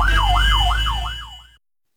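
A fire engine siren wails up and down in about four quick, loud cycles, then cuts off abruptly. A car driver was blocking the engine's way, and it was filmed on a mobile phone.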